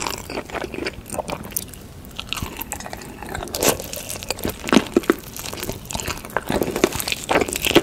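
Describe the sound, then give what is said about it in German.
Chewing and crunching from people eating mountains of food in an eating video: many irregular crisp bites, crinkles and wet mastication sounds following one another steadily, with no talk. “gucken, wie sich Leute Berge von Essen reinziehen. Ich esse lieber selbst, aber manche benutzen solche Videos auch zum Einschlafen, haben wir gelernt. Und ja, so hört sich das an.”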